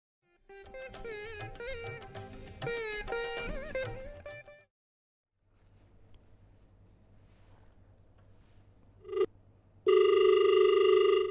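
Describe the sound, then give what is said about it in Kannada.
A loud, steady telephone line tone sounds after a call is disconnected, starting abruptly near the end after a brief blip and a stretch of quieter background noise. “ಕರೆಯಲ್ಲಿ ಕಡಿತ ಉಂಟಾಗಿದೆ.”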